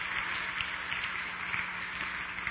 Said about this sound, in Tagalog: Muli po, palakpakan natin ang Panginoon sa Kanyang kabutihan.